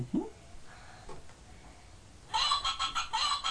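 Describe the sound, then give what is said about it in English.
A hen clucking, played from a button on a children's sound book: after a mostly quiet stretch, a quick run of bright, evenly spaced clucks fills the final second or so. “What's that one? What's that button? A hen.”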